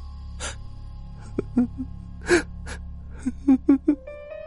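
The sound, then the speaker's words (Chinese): A woman cries aloud, with sharp gasping sobs and shaky breaths, sparse at first, then a quick cluster of several catching sobs toward the end. “我控制不住哭出了声音”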